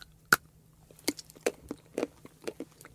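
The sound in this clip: Someone bites into a piece of chocolate: a sharp snap, then a series of soft, irregular crunching chews. It is quiet, with no voices.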